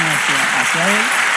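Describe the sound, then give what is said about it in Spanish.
Applause from a church audience, a steady wash of clapping with a voice talking over it. “Dame un aplauso al Señor.”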